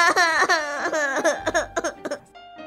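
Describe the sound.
A young girl crying in high-pitched, wavering sobs broken into several short bursts with gasping breaths between them.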